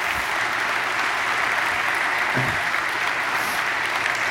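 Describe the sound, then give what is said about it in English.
Steady applause from an audience welcoming special guests at a gathering, a continuous, fairly loud wash of clapping that holds evenly throughout with no single voice standing out. “Let's give them a round of welcome.”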